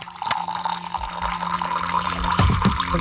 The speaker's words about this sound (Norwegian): Det noen som heller seg opp litt te, ja. Mm, rører litt.